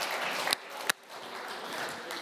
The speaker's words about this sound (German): So, irgendwie müsst ihr jetzt jubeln oder toben, tanzen, klatschen, gut. Schweizer Begeisterung hat die.